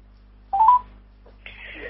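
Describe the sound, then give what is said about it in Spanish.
Telephone dialing tones sound as a short burst of stepped beeps while a call is placed, followed by a fainter buzzy tone. “que yo lo llamo a Viviana, pará, yo lo llamo. A ver si tenemos suerte.”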